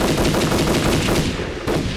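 Rapid automatic gunfire during a firefight after attackers break through a stairwell door: a dense, unbroken stream of loud, sharp shots fills both seconds with no pause and no voices.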